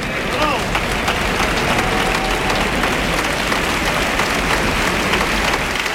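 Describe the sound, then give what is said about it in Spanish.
Crowd ovation at the Seville bullring, the Maestranza, during a bullfight: a dense, continuous roar of clapping that stays loud and steady throughout, with a voice talking faintly over it. “Ovación de la maestranza señor. Una lidia extraordinaria.”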